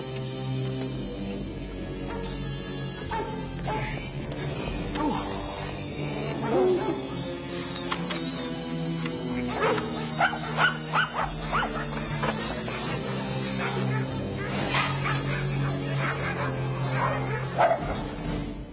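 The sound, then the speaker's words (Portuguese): Dogs barking and yipping in a dubbed film scene: many sharp barks and higher yips over a dense, busy background, loud and continuous throughout. “Eu não gosto quando você provoca os cães.”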